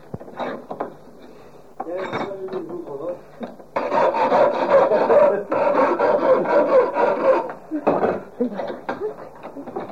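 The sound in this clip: A file rasps across the point of a steel chisel clamped in a vise. Repeated gritty scraping strokes come in an uneven rhythm, loudest and densest through the middle stretch.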